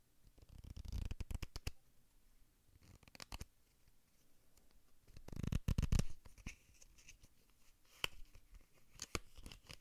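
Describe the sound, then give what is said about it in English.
A deck of playing cards is shuffled in a few quiet bursts of rapid, papery riffling and flicking, separated by brief pauses, with one sharper snap near the end. “I also have some, like, playing cards.”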